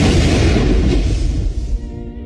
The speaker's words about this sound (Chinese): 当音管内的感应器感应到气流通过，装设好的炸弹就会依序收到讯号，接着引爆。